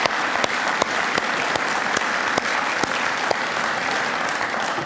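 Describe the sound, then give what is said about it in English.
An audience applauds a contemporary worship team with steady, dense clapping. A few sharp individual claps stand out at a roughly even pace throughout. “our contemporary worship team was there, and let's give them a big round of applause”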